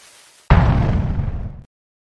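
An explosion sound effect, the Bundy bomb: a single sudden, loud booming blast that rumbles and fades for about a second before cutting off abruptly.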